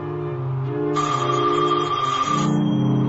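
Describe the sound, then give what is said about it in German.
A telephone in a gravedigger's house at a cemetery rings in one sustained, bright burst lasting about a second and a half over a low, steady droning background. “Ein Anruf für den Totengräber? Ich werde mal drangehen.”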